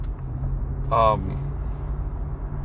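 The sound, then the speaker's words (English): Steady low rumble of a car driving stop-and-go through downtown Chicago, continuous throughout, with a brief tonal burst near the middle. “Sorry, I'm driving down through downtown Chicago. I've been driving downtown Chicago for 24 minutes.”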